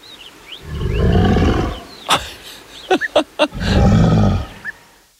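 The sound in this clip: Reconstructed roar of a dinosaur, a predecessor of T-Rex: two long, deep, rumbling roars separated by several short, sharp snapping clicks, loud and without talk.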